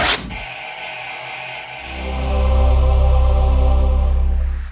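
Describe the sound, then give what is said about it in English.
Television network video logo intro: a harsh burst of static-like noise opens it, then a deep, sustained tone swells up to a loud, full drone and holds steady before easing slightly at the close. “Chances are, one of your favorite shows began with that sound. It's the sound of HBO's video logo.”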